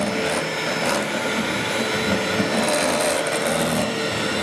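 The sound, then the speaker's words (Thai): Electric egg beater motor whirring steadily while mixing during a cooking demonstration, a loud continuous buzzing drone with no breaks from start to finish. “อันนี้จะเป็นเครื่องตีไข่เครื่องตีไข่นะ”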